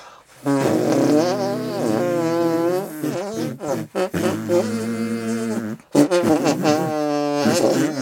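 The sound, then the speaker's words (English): Musical arm farts: a loud run of buzzy, tonal squelches whose pitch shifts up and down to form a rough tune, broken by a few short pauses. “And now I'd like to invite you to musical arm fart your way. That's how I close out my narrative.”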